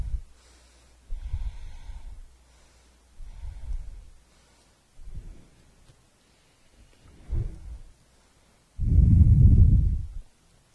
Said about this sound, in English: Deep Ujjayi breath to you.